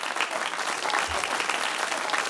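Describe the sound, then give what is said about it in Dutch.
Theatre audience applauding after a performance: a continuous wash of many hands clapping, fairly faint and even, with no break across the whole stretch. “Hé, ze klappen nog steeds. Zullen we nog een keer buigen?”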